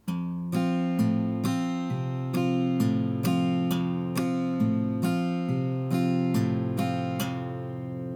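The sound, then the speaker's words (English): Acoustic guitar with the thumb alternating bass notes across the low E, A and D strings between light index-finger strums over one chord, forming a steady, evenly paced repeating pattern of ringing notes with no talk. “I want you to move your thumb around. Do the low E string, then the A string, then the D string. That'll sound like this.”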